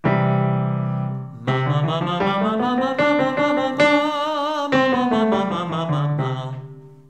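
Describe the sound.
A singer's sustained voice performs a variation of a major scale, holding a low note and then stepping upward through clear, steady pitches to a high top note before descending again, loud and unaccompanied.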